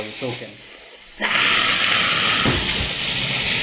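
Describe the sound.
A can of Guinness beer being opened, a lively pour: a loud, sudden hiss of escaping gas that starts abruptly after a moment of talk and keeps spraying steadily to the end.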